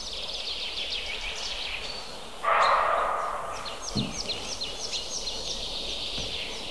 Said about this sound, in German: Oh, diese Meise macht mich wahnsinnig. Es ist da jetzt keine Sumpfmeise.